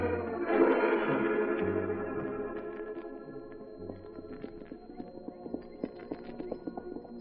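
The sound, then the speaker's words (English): Horses' hooves clip-clop slowly as two riders of a Union Pacific survey crew head back to camp west of Cheyenne, a steady unhurried hoofbeat alongside sustained musical tones. “Two men of the Union Pacific Survey crew working west of Cheyenne toward the Indian settlement rode slowly back to camp at the end of a day's work.”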